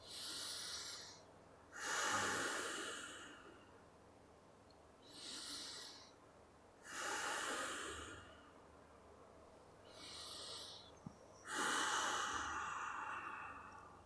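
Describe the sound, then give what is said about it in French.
Deep, slow breaths with sighs: three big breaths, each a softer intake followed by a longer, louder sighing exhale with a breathy hiss, evenly paced and heard alone without talk. “prenez trois grandes respirations, soupirs, comme tout à l'heure”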